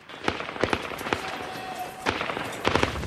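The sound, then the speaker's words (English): A film scene of gunfire as a man fleeing up some steps with another turns and fires a burst, with Marines firing back. Many sharp cracks come at irregular intervals over a noisy background. “Ahmad and Jaffa scarper up some steps, Jaffa running ahead as Ahmad turns and lets rip with another burst of fire.”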